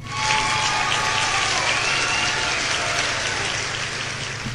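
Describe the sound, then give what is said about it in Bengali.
Sustained applause for quiz contestants who reached the semifinals: a dense, even crackle of many hands clapping that stays loud for several seconds, with no voices over it. “সবার জন্য রইল হাততালি।”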